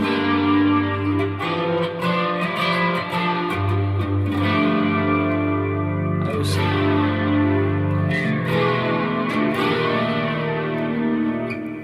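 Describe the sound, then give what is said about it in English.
Flanger effect on sustained, gritty held notes that change a few times, with a slow, repeating jet-like whoosh sweeping through the tone; loud and steady, with no talking. “so let's hear a flanger.”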